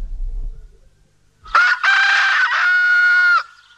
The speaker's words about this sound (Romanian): Un cocoșel! Din sipet a ieșit un cocoșel!